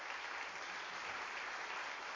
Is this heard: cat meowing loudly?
no